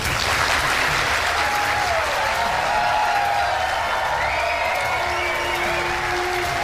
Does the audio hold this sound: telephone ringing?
no